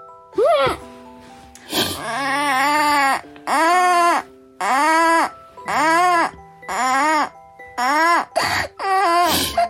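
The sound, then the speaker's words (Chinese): A child cries in many drawn-out, high wailing bursts, each separated by short breaths, loud and without other voices. “你怎么秒哭了？来，告诉我哭什么？”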